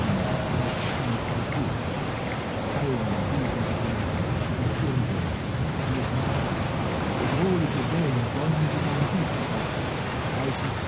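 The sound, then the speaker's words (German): A stormy sea roars after an undersea earthquake off the coast between Hiroshima and Matsuyama, with waves and wind forming a continuous, loud, even wash of noise throughout. “Das Meer beginnt zu brüllen.”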